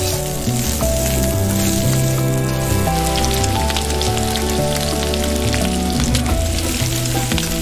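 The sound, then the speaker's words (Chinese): Sizzling of fatty pork slowly stir-fried on a home stove in western Jiangxi, rendering amber fat for wine-lees pork. The loud, dense, crackling hiss holds steady throughout, with no voices. “慢煸肥肉熬出琥珀色的油脂”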